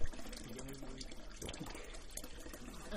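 Water trickles and splashes as mineral spring water flowing from a rock channel is scooped and drunk with a ladle near Beopryun Temple in Korea. The sound is a faint, steady, noisy wash with no clear separate drops.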